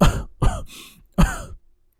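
A young man coughing up blood from an unhealed wound: three harsh, throaty coughs with short gaps between them, the middle one trailing into a breathy rasp, then quiet.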